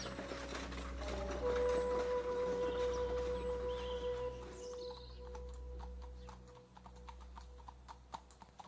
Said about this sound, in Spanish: Rafael está cabalgando con algunos mozos después de un día de trabajo.